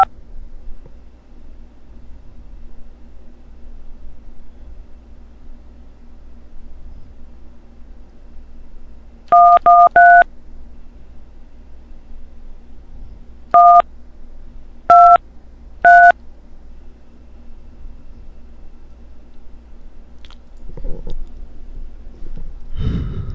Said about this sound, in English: All right, it's not going to let me dial another number.